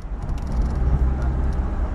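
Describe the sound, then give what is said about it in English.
A bus pulls away at the start of a long overnight-length journey, its engine giving a steady low rumble that holds at an even, fairly loud level throughout with no clear voices. “The bus leaves on its 16-hour-plus journey to Harare.”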